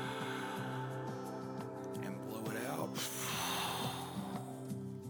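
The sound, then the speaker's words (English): A deep breath forced out hard in a breathing exercise, one noisy, forceful exhale swelling midway through, over steady background music. “Just draw a couple of deep breaths, and when you force that breath out, just push it out so hard as if you're getting rid of a toxin and anxiety that you just cannot wait to release. Let's breathe.”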